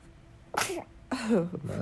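A young girl sneezes a few times in quick succession: short, sharp, high-pitched bursts with breathy hiss and a voiced catch, fairly loud against a quiet background.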